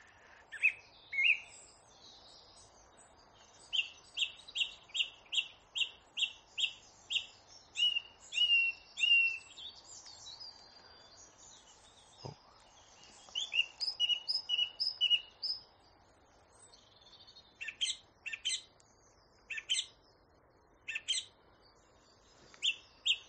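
A thrush sings alone in a quiet setting, repeating short, bright, high chirping phrases in quick rhythmic runs separated by brief pauses, with each phrase often echoed several times.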